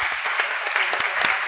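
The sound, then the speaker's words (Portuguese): Office staff clap to celebrate a sale, a short dense burst of steady applause lasting about a second and a half. “Desculpa o barulho, é porque quando o pessoal vende aqui a gente bate palma.”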